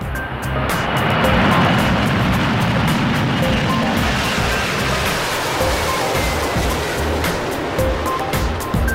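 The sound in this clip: An airplane takes off with a loud, steady roar of engine and rushing air that holds nearly level throughout, with no voices over it.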